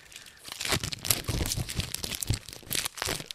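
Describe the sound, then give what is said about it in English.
Packaging of a trading card box tears and crinkles as it is opened, a quiet, continuous run of crackling rustles and sharp rips. “We could crack the box on the show if you want. Yeah, we got a box or whatever. Okay, let's open. Let's do it.”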